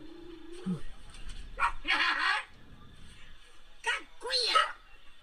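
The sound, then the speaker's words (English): A person imitates a dog with a few short, barking and yipping bursts. Speech-like tones come before the bursts. “there's a dog, but there's a person that's making dog noises”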